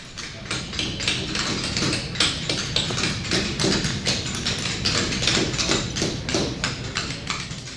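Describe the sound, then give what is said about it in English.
Many hammers and chisels strike stone at once in a stone carving workshop at the Kansas City Art Institute, about twenty pairs at work. The sharp taps overlap into a dense, steady clatter that never lets up. “It's the sound of 20 pairs of hammers and chisels on stone.”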